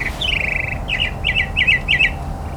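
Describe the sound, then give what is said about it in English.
A mockingbird calling outdoors: a drawn-out squawking note, then several short, repeated chirping phrases in a loose rhythm over a low steady background hum. “see if the mockingbird will start vocalizing again”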